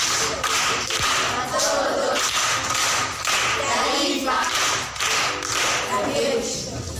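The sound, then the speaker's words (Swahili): Audience applause for a man at a primary school gathering: a steady, dense patter of many hands that runs through the whole clip with little change. “Makofi kwa mjomba.”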